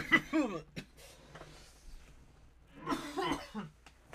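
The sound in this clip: Dry, harsh coughing from a person with a dry throat: a few short, rough bursts with throaty voiced sounds between them, ending in a louder cluster of coughs.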